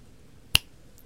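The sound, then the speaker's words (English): A single crisp finger snap, sharp and brief, standing alone against near silence. “when I snap my fingers, you'll wake up”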